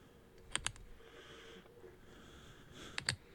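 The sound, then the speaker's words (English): A ballpoint pen clicks twice in two quick double clicks, sharp and crisp against a faint, quiet background, with a long gap between the pairs. “It's basically a pen clicking. Yeah, this is a ballpoint pen.”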